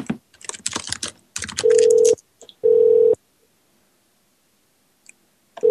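A telephone ringback tone plays while a caller waits on hold: two steady, loud, mid-pitched tone bursts with a pause between them, then quiet, then the start of another burst, after a short stretch of scattered noise.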